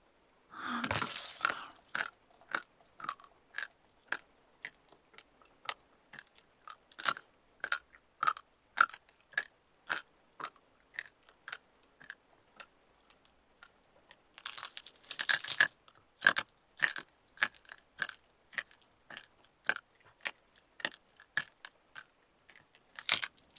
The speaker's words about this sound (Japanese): 肩までギリギリまで食べてあげる。